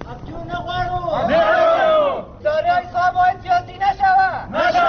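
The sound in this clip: Dozens of dismissed employees protesting in Kabul shout and chant loudly, their voices coming in rhythmic bursts with short pauses between phrases.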